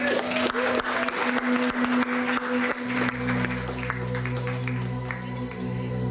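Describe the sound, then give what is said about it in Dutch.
Studio audience applause on a radio arts programme just before a song: dense, lively clapping for about three seconds, after which sustained musical tones enter and carry on under the fading claps. “Geef hem maar vast een groot applaus.”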